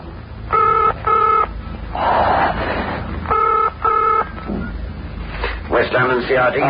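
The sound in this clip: Touch-tone telephone keypad beeps sound on a line that gives no dial tone: four crisp tones in two quick pairs, separated by a stretch of hiss and rustle, with more muffled noise toward the end.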